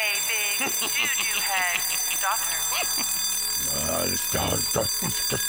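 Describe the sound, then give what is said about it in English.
An intruder alarm in a central office rings as a steady, high, unbroken tone through the whole clip, with voices talking over it. “all right, just stop that alarm”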